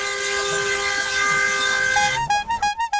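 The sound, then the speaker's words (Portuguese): A vehicle horn sounds a loud, sustained, multi-toned blast, then breaks into a rapid series of short, rhythmic honks. “Uma bosta, cara, essa buzina sua aí, cara.”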